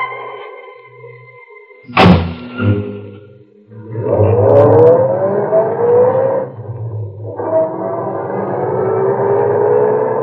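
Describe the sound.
A car door shuts with a heavy thud, then a car's engine drones and pulls away at night from a service station, its pitch climbing as it moves off and continuing steadily to the end.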